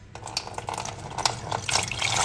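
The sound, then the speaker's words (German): Lukewarm water poured over honey in a glass makes a continuous splashing trickle with a few brighter spatters, growing slightly louder toward the end. “Dann kommt der Honig rein, dann machen wir das Glas einmal auf. Dann tun wir da ein bisschen was außer. Und noch lauwarmes Wasser. Und das lassen wir halt schön drüber.”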